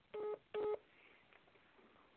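Two short electronic beeps mark a prison phone call being cut off, followed by faint line hiss and no talk.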